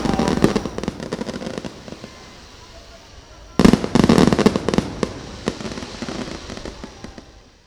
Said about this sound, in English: So feels something appropriate about seeing this fire.